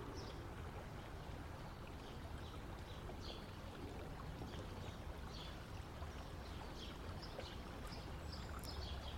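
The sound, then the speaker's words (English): A river flows in the distance as a soft, steady rushing wash of water, faint and unbroken, with a few light bird chirps scattered above it. “The river flowing in the distance and the creatures prancing about are our only soundtrack.”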